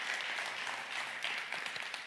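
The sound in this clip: Congregation applause during a church service: dense, steady clapping that fills the whole two seconds at an even level, with no clear voices above it.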